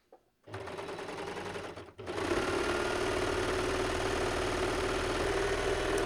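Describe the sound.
A sewing machine stitches a long seam along a folded cuff. The whirring motor starts, breaks off briefly, then runs in a steady, fast, even hum until the end.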